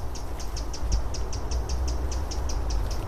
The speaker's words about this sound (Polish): Jakaś sikora jest zaniepokojona, czyli coś wokół nas, albo kot idzie, albo... albo pies, albo krzyczy na nas.